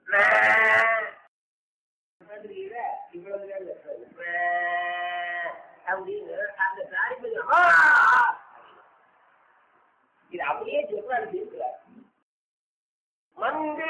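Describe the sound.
A young calf of a small cow calls out in a few drawn, bleating cries, separated by pauses and mixed with people talking nearby.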